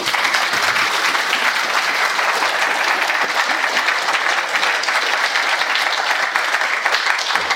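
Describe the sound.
Audience applause welcomes a speaker introduced as a literature professor and college fellow: dense, steady clapping holds at a constant loud level for the whole stretch, with no voices rising above it.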